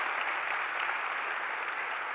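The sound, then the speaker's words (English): A church audience applauds the worship team with steady, dense clapping. It stays even and fairly loud for the whole clip. “Yes, let's give them an applause.”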